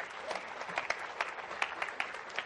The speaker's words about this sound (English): Give the Lord a hand clap, would you,